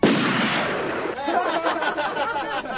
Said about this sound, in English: All right, pull the trigger.